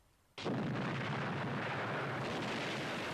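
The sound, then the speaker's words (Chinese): Bombs and cannon fire roar up abruptly during a warship attack on a submarine at sea, then hold as a loud, dense, continuous rumble with no clearly separate blasts. “在第二天早上五点钟的时候，炸弹的炮响越来越强烈。”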